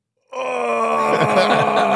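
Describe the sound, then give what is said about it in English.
A human voice imitates a groan: one long, steady, strained moan that starts abruptly and holds at an even pitch and loudness to the end, alone and with no words. “Just a groan is the first thing.”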